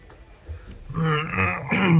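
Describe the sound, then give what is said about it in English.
A man clears his throat during a talk about storing brewing yeast. It is a short, low, rasping grunt that builds into a harsher voiced rumble toward the end. “Were you clearing some yeast out of your throat? You grunting one out or what?”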